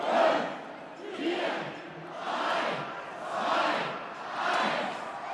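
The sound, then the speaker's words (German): Carnival crowd cheering and chanting on a city square in Mainz at 11:11 for the season opening. Loud, rhythmic waves of massed voices swell and fade about five times in steady succession. “So klang das heute auf dem Schillerplatz in Mainz um 11.11 Uhr. Egal ob Hellau, Alav oder Narinaro, die 5. Jahreszeit läuft und die Menschen haben Spaß, wie hier in Trier.”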